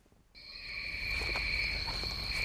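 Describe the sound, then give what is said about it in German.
Cicadas on a steep rainforest hillside start up abruptly after a brief quiet moment, then hold a steady, high, shrill buzzing drone at low volume. “Begleitet vom Zirpen der Zikaden”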